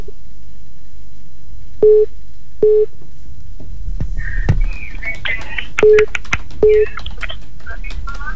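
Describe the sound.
Telephone busy tone after a call is cut off: four short, steady mid-pitched beeps in two evenly spaced pairs, with a voice talking between the pairs and over the later beeps.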